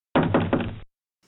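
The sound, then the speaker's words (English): Knocking on the door of a brick house: a few quick, heavy raps run together into one dull, resonant burst, followed by silence. “The wolf knocked on the door.”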